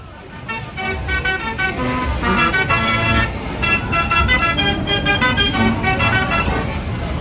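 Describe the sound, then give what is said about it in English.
A Gavioli fairground organ plays beside a set of gallopers at a steam fair, filling the air with loud, continuous, bright reedy and piped music full of layered harmonic tones. “it all started with the set of gallopers and the Gavioli organ you're about to hear playing. And these sounds recorded on site on Sunday at Prospect Park.”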